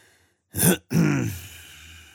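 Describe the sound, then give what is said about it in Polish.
A father clearing his throat: two short, gruff bursts after a moment of silence. The first is brief and rough, and the second is longer and trails off more softly. “Jego ojciec odchrząknął i powiedział:”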